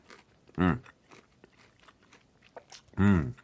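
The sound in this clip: Crunchy biting and chewing of a raw carrot, faint crackly munching between two loud voiced murmurs.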